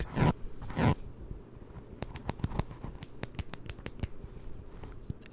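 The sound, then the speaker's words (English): Pen clicks in a quick, irregular run of many crisp, sharp ticks, preceded by two brief, loud scraping bursts of the pen against a microphone. “was a pen click.”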